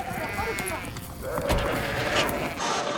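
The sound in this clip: Sheep bleat as they are loaded onto a transporter beside ranch pens, several wavering, overlapping calls rising over a busy, noisy background.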